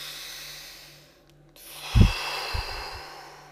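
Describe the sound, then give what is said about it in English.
A single deep breath taken during a tapping exercise, a soft airy hiss that swells and then fades, with a few low thumps beneath it and no talking. “Take a breath.”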